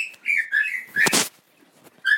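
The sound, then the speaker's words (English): A pet parrot whistles and chirps in short, high, sliding notes with brief pauses between them. One harsh, noisy squawk bursts out in the middle of the whistles. “What a parrot, eh? What a friggin' parrot.”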